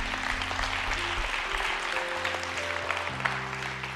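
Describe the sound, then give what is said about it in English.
A church audience applauds with steady, dense clapping that keeps going throughout, over sustained low musical tones. “Y'all give the Lord a big hand.”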